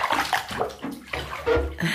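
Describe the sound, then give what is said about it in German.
Water runs into a bathtub as a bath is drawn. The rushing, splashing flow is steady and moderately loud, with uneven surges and sloshing throughout. “Ich lasse das Wasser ein.”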